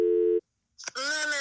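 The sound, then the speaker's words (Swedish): A telephone ringing tone as a call is placed: one steady, low beep lasting under half a second, then a short silence before a voice answers. “Okej, nu ringer vi Josefin.”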